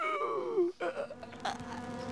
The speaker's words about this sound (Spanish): Las cenizas se transformaron enseguida en zancudos, tábanos y mosquitos, que desde entonces molestan a los humanos.